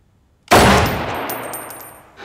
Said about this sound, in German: So, jetzt schießen Sie mal.